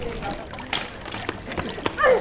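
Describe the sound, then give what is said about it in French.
Water trickles and splashes in small irregular spatters while it is being recorded. Voices speak over it now and then. “Alors, ah, c'est quoi que tu enregistres L'eau.”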